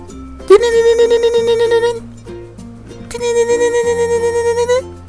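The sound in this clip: Electronic telephone ringtone for an incoming call sounds in two long, loud bursts, each a rapidly warbling, pulsing harmonic tone, separated by a short pause.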